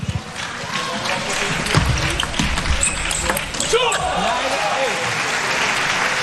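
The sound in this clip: A table tennis ball clicks during a serve in a match, a few sharp, brief taps set against steady crowd noise while a commentator talks.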